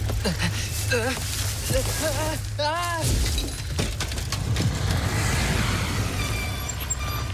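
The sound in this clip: Car forced off the road toward a ditch by an overtaking car: a low engine rumble under alarmed, shouting voices, then the rumble stops and a burst of crashing, breaking noise follows.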